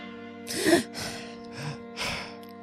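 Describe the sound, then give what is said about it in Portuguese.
A deep breath taken before reading aloud: a few soft, breathy inhalation and exhalation bursts over a steady low hum. “Vou encarar a coisa. Ok. Que é como quem diz. Vou respirar.”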